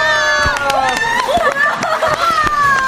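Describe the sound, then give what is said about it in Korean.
Fanfare sound effect played to celebrate a singer's upcoming birthday before an open mic segment: bright sustained tones ring out over a lively burst of crowd cheering and chatter. “빵빠레 먼저 올려볼게요.”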